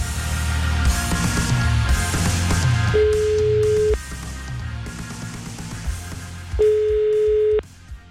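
Telephone line tones as a number is called: two long, steady tones, each lasting about a second, separated by a pause, over background music.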